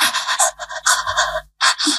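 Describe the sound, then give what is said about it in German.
A voice imitating heavy panting, like someone lying exhausted on the ground, in many rapid, loud, breathy huffs, with a brief silent pause before the panting resumes. “Ich habe mein Schnaufen gehört und dann, ich muss schnell ASMR machen, dass ihr es hört. Kennt ihr das Schnaufen”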